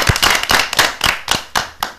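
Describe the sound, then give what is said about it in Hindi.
Rhythmic clapping from children in a classroom applauding a classmate's talk, sharp, loud claps landing in a steady beat about four per second, many in a row, with no voices. “तो हो जाए तालियां।”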